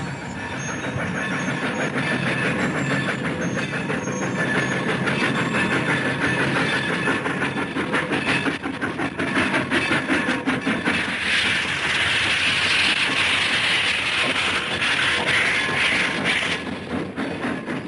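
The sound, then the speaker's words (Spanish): A train running on rails gives a loud, steady rumble with rhythmic clatter throughout, and a broad hiss swells over it in the second half. “El tren se detuvo en la estación.”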